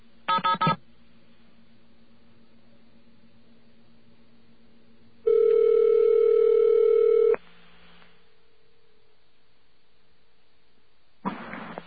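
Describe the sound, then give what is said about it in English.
Touch-tone keypad beeps as a telephone number is dialled on a staticky line: a few quick tone bursts at the start, a long steady tone lasting about two seconds in the middle, then another short burst at the end, with faint hiss between. “Now, let's dial away.”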